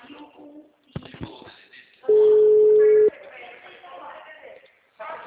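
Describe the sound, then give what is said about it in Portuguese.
A telephone tone rings out while someone calls a person again: a single steady, mid-pitched beep lasting about a second, set among people talking. “Tá, ligar pra ela de novo.”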